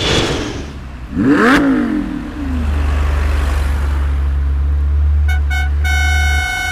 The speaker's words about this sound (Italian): Ma dove l'hai rubata sta bestia di Ferrari?